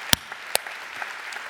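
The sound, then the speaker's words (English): Applause from a church audience: a steady, even wash of many hands clapping, with two sharp, louder claps standing out near the start. “Can we give them a huge hand? Just let them know we're glad that they're here.”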